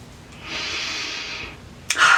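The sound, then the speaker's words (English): A big deep breath: a long, steady inhale, followed by a shorter and louder sharp breath at the end. It is heard alone, with no talk. “Big breath on that one.”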